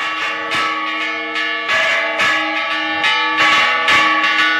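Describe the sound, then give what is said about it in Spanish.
Church bells of San Roque church ring at five in the morning on the day of a festival's bull run. Several loud, overlapping bell strikes sound in sequence, each leaving a rich, sustained metallic hum that builds as the ringing continues. “esta mañana a las 5 de la mañana, las campanas de la iglesia de San Roque”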